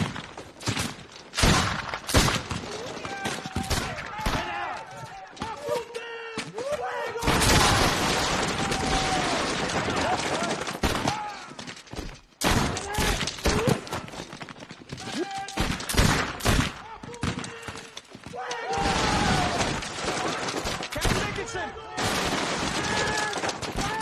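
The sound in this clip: Rifle volleys fired in a drill at the Alamo, with many loud, sharp gunshot cracks coming in irregular bursts and long crackling stretches over about twenty-four seconds, with voices heard among the shots.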